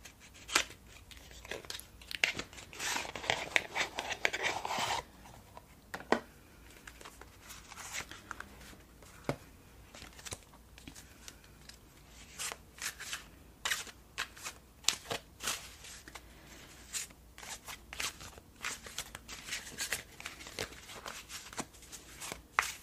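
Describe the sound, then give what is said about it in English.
A standard-looking tarot card deck is handled and a card pulled: soft, dense riffling at first, then many crisp flicks, taps and rustles of cards, all faint and gentle. “I'll just pull a general tarot card. This is actually like the standard looking deck.”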